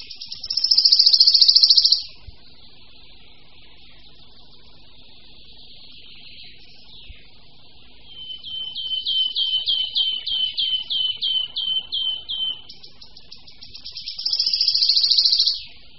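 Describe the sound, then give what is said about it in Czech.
Wood warbler song: high, thin buzzing trills open and close the passage, with a run of quick repeated bright notes between them and a quieter stretch before it. “Jejich zpěv, určený jak sousedním samečkům, tak samičkám, je doprovázen flétnovitým, poněkud melancholicky znějícím vábením.”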